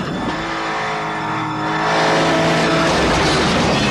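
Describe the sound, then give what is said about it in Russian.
Car engines roar as the vehicles speed along a road that runs up and down over hills, a steady harmonic drone that grows louder about halfway through and stays loud to the end. “Едут по дороге, идущие то вниз, то вверх. На одном из холмов на большой скорости машины подскакивают.”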